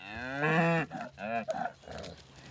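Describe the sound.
Cattle mooing as a cow and bull calf rejoin their herd: one long, loud, low bellowing moo, then several shorter calls in quick succession.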